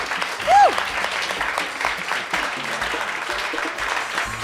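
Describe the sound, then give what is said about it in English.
An audience applauds a jazz band at the end of a live set with steady, dense clapping, while a voice speaks over it. “Let's hear it again for Mr. Johannes Wallman and The Sweet Minute.”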